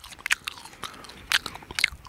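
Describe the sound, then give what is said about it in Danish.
Crisp bites into an edible marigold flower, a few short, sharp crunching bursts separated by quiet gaps, fairly faint with no voices. “Stik mig lige en bid af den her morgenfrue. Jeg snupper den lige her.”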